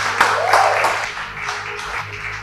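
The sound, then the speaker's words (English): A church audience applauds, giving steady, overlapping hand claps that stay fairly even in loudness from start to finish. “Why don't you put your hands together for the Lord?”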